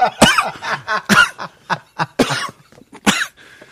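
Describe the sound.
Coughing from e-cigarette liquid caught in the throat: a series of harsh, irregular coughs with choked gasps between them.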